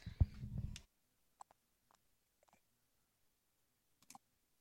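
A few sparse, faint clicks of keys being pressed on a computer keyboard, irregularly spaced with long silences between them, following a brief burst of noise at the start.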